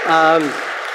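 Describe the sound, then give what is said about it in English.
A church audience bursts into applause, dense clapping that rises right after a spoken voice and carries on evenly for a moment. “Give him a round of applause. Yeah.”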